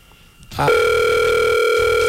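A telephone call rings out unanswered, heard as a loud, steady electronic tone that begins after about half a second of quiet and holds unbroken to the end.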